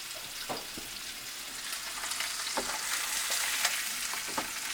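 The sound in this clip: Food sizzles and fries in bacon fat while an English breakfast cooks, making a dense, steady hiss scattered with crackles and pops. It is fairly loud and plays alone with no talking.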